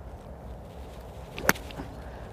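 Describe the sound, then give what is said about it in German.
A golf club strikes the ball with one sharp, bright crack, a brief lone impact standing out over a low, steady background hiss. “Jetzt kommt der wunderbare Schläger, ja. Jawohl, jetzt kommt der hier zum Einsatz.”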